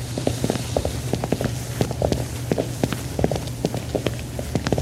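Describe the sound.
Footsteps walk over to a spider terrarium, many even, steady steps landing as short thuds over a constant low hum.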